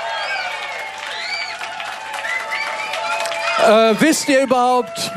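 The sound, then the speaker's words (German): Concert audience applauding and cheering for a band, a rough wash of many clapping hands with high whistles and shouts, then a loud voice breaking in over the crowd near the end. “Macht mal richtig Lärm, noch mal lauter. Das muss viel lauter sein. Ein Riesenapplaus für Chris Cosmo und seine Band.”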